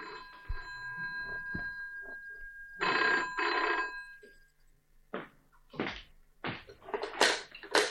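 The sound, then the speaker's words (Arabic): Telephone bell ringing in a drama scene, with a few bursts of bright metallic ringing separated by short gaps. “على كيفك يا سي مجدي، اقوم انا ارد على التليفون.”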